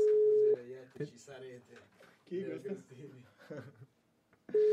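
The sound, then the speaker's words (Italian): An unanswered telephone call: a steady low ring tone sounds at the start and again at the end, with people talking in between. “Vediamo se la Buzzi ci risponde al telefono.”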